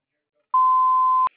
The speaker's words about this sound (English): Please leave one detailed message after the tone with the best phone contact number, and I will return your call within 24 to 48 hours.